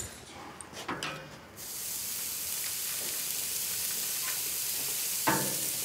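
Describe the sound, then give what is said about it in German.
Burger patties sizzle on a grill: a steady, bright frying hiss starts after a few soft knocks and holds evenly, with a brief sharper crackle near the end. “Ich packe jetzt hier die Burger-Patties auf den Grill. Hoffe, die fallen mir nicht auseinander.”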